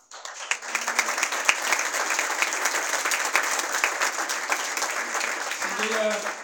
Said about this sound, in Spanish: Sin duda que este es un merecido aplauso